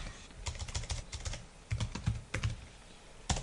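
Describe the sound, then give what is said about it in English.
Rapid clicking of keys on a computer keyboard as an email address and password are typed in to log on, many quick taps in uneven bursts with short pauses between them. “I'll click onto that. I put in my email address, put in my little password.”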